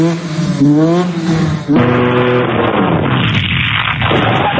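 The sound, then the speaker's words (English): A dirt bike engine revs loudly on city streets, giving a continuous, buzzing roar whose pitch wavers up and down as the throttle is worked. “Dirt bikes have long been a part of Baltimore's culture. But riding them on city streets is illegal and could lead to a $1,000 fine or jail time. Critics say the bikes are noisy safety hazards.”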